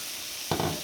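Onion cooks in a pan on a stovetop with a faint, steady sizzle, then a short, louder burst of sizzling or stirring near the end.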